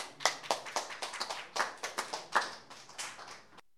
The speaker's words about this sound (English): That's a smattering, but it's okay. We're working our way up to a smattering of applause.